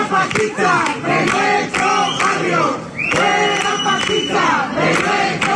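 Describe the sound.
Crowd shouting and chanting in the street outside a house on calle Larga in Jerez during an eviction carried out by workers of a property-clearing company; many voices form a loud, continuous roar with rhythmic bursts throughout.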